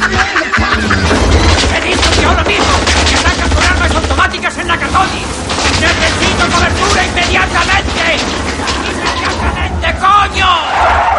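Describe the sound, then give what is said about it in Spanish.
Assailants fire guns at a police car reversing away in a 1988 action film. Loud, dense bursts of gunfire continue throughout, mixed with clamouring voices. “Los asaltantes disparan sobre el coche patrulla que sale reculando.”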